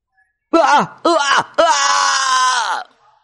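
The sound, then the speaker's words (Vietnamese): A man wails and moans in agony. Two short, anguished cries are followed by one long, sustained, strained wail that sags in pitch as it dies away, with silence before and after. “Giả dịch kêu rên thảm thiết, kêu tới xé lòng.”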